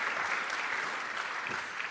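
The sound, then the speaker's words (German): An audience applauds in praise during a church sermon. The clapping is soft but dense and even, a steady patter lasting the whole two seconds. “Come on, give God a praise. Gib Gott ruhig einen Applaus. Yeah, you better give God a praise.”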